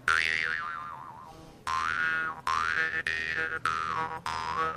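Jaw harp hand-made by a local blacksmith, played with the teeth pressed on its metal frame: six twanging plucks in a row, each a buzzy, metallic drone whose pitch wavers in a vocal, wah-like way.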